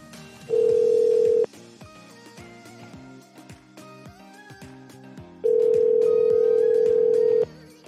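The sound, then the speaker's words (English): A telephone rings unanswered, heard through the line as two long, steady, low-pitched ring tones separated by a pause of several seconds, the second ring lasting about twice as long as the first. “how am I supposed to help with this rain in the house if you don't pick up? Right, that's just ringing forever.”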